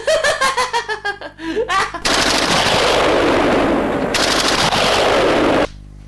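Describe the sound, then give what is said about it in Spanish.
A bombardment sound effect with gunfire: a few seconds of dense, continuous rapid firing at a steady loud level, preceded by bursts of laughter. “¡Bombardeo!”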